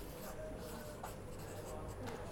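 Pen strokes scratch faintly and intermittently across paper as someone writes down notes.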